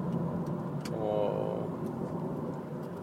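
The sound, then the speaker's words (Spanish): Steady car engine drone and road rumble while driving, a continuous low hum with no clear breaks. “Como verán, estoy nuevamente manejando, estoy yendo a recoger a mi hijo”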